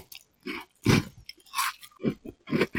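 Biting into and chewing crisp chocolate mint cookies: several crunchy bursts of teeth and mouth sounds with short pauses between them, fairly close and with no talking.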